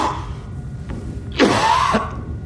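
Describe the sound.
Someone coughs and clears their throat in one short, rasping burst, as if something is caught in it, over a low background hum.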